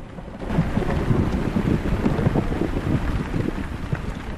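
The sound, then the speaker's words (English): Heavy rain falls on green foliage in a steady, dense wash of noise that holds at an even loudness for the whole clip. “Rain lashes the land. The slate-grey sky and raindrops pattering down on green foliage.”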